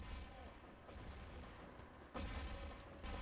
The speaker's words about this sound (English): As you hear the grenades in the background there, as Wolverine hits Broly